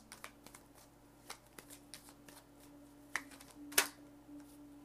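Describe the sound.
Soft shuffling of tarot cards, faint and papery, with scattered light clicks and a sharper snap of cards near the end.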